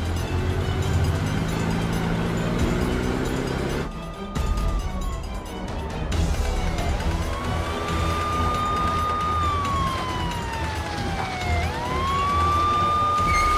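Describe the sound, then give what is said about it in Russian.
Police car sirens wail as militia cars arrive at a hangar, with a few long rising and falling tones over a steady rumble of vehicles. The sound drops briefly before the sirens take over. “Машины милиции приехали к ангару.”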